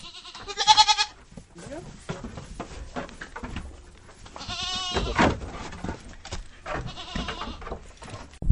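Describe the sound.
Goats bleat as they are herded on a farm, a few loud, wavering cries standing out over people talking and shuffling movement.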